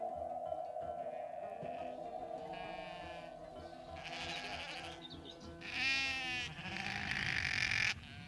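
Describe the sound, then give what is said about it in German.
Sheep bleating, a small flock of six, with several wavering bleats that grow louder toward the end over a steady, low background drone. “Hier bin ich. Und ich habe dir 6 Schafe mitgebracht.”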